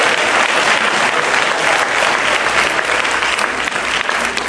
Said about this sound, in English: Come on, give him a big hand.